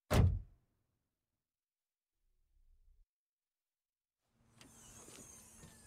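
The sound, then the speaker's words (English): A door is shut with a single loud, heavy thud at the start. A stretch of near silence follows, then a faint low rumble and later a steadier mechanical hum. “closes the door.”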